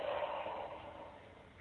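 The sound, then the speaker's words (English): A single quiet breath from a guided exercise of breathing in through the nose and out through the mouth, a soft airy rush that gradually fades away. “So breathing in through the nose and out through the mouth.”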